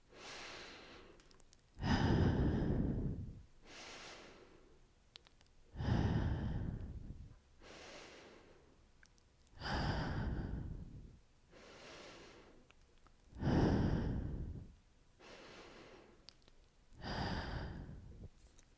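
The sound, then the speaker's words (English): Slow, deep breathing, in through the nose and out through the mouth, repeated five times. Each breath pairs a soft nasal inhale with a louder, longer, airy exhale, in a steady, unhurried rhythm. “take 5 deep breaths with me, in through your nose and out through your mouth.”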